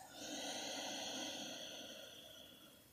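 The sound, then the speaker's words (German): Slow breathing through the nose during a children's yoga exercise comes as one long, soft, airy breath that swells and then gradually fades, quiet and without talk. “langsam durch die Nase ein und ganz langsam durch die Nase wieder aus.”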